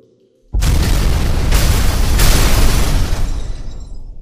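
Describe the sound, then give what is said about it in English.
Moderate-sized explosives detonate to clear debris. After a short silence, one sudden heavy boom breaks into a loud, sustained roaring rumble that slowly tails off over several seconds. “I'm placing some moderate-sized explosives along strategic points. That should clear away the debris.”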